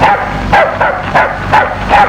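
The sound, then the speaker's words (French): A dog barks at a field mouse, giving a quick run of several sharp, fairly loud barks spaced roughly a quarter to half a second apart, with no talk over them. “Billy vit un mulot et se mit à aboyer.”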